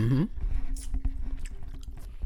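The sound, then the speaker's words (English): Biting into and chewing a cheeseburger: a short voiced sound opens, then steady, moist, squishy chewing follows with many soft repeated crunches. “That, by the way, is yours truly taking a bite out of his delicious cheeseburger.”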